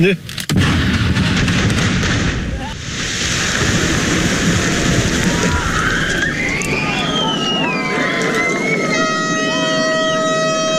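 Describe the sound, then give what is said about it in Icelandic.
An explosive blast opens the first excavation of the Eysturoy road tunnel in the Faroe Islands at a festive ceremony. A sudden booming burst gives way to a long, loud wash of rumbling noise, and steady horn-like tones rise toward the end. “Fyrsta sprengingin í Austureyjagöngunum í Færeyjum Strandamegin”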